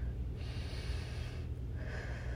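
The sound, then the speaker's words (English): A deep breath drawn in through the nose, a quiet, airy, steady inhale lasting a couple of seconds, heard alone without talking. “So I encourage you to take 3 deep breaths with me. Ready? 1, breathe in.”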